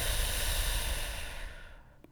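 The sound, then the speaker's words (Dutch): Deep breathing through the nose and out through the mouth during a morning meditation: one breathy rush, strongest at first, then gradually fading away over about two seconds. “En begin dan maar eens met heel diep inademen door je neus. En flink uitademen door je mond.”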